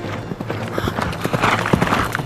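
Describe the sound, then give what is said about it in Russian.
Hoofbeats of a horse galloping after being spurred by its rider, a dense, steady run of many quick thudding clip-clops at moderate loudness with no voices. “он вскочил в седло и пришпорил лошадь.”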